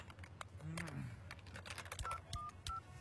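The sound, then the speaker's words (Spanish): Telephone keypad tones from someone dialing a call with a phone card: a few short, faint electronic beeps near the end, with a brief voice and soft clicking beforehand. “¡Párame, que estoy marcando!”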